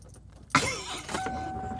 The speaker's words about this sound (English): And I am driving home.